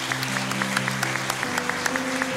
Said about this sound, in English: Let's give them another hand clap and praise today.